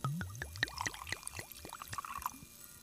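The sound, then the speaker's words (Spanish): Champagne poured into a glass, a quiet string of gurgling glugs and bubbly trickles in quick succession. “echarlo en una copa”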